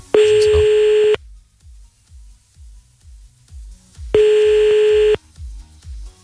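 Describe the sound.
A telephone ringback tone while redialing: two steady, mid-pitched tones of about a second each, a few seconds apart, with faint rhythmic low clicks in the gaps.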